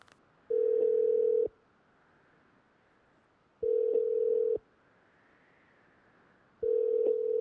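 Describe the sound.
Ringback tone of an outgoing telephone call: three steady, mid-pitched tones, each about one second long, separated by roughly two-second gaps of near silence.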